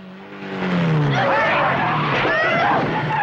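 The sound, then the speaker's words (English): A motorbike zooms past on a road. Its engine note drops in pitch as it goes by, then swells into a loud, sustained, noisy roar with squealing, tire-like whines. “Coogan ducks aside as Ringerman zooms past and hits the road outside.”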